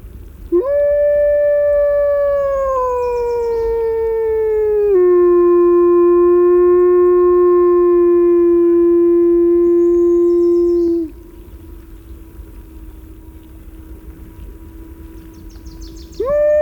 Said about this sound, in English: there's another wolf that was probably over a mile away, and they were talking to each other.